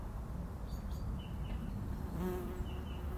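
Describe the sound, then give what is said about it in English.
A wasp buzzing: a faint, wavering drone that sits low under steady background noise and swells briefly near the end. “that'll be a wasp.”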